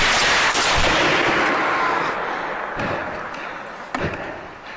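A loud gunshot blast fired in darkness, a broad roaring burst that decays slowly over several seconds, with a couple of fainter sharp cracks following.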